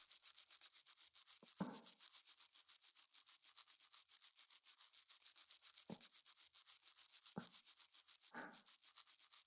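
A toothbrush scrubs another person's teeth, held in the non-dominant hand. The brushing is faint, rapid and rhythmic throughout, with a few soft low bumps.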